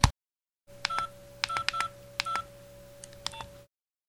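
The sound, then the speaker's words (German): Touch-tone dialing on a telephone to call a colleague, a quick, unevenly spaced series of short key beeps over a steady dial tone, preceded by a brief click. “Als die drei losfliegen, ruft der Kommissar seine Kollegin an.”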